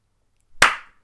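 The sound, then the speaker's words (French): A single sharp hand clap, a bright slap with a quick fading tail, heard alone against silence. “J'ai fait le claquement le plus pété du monde.”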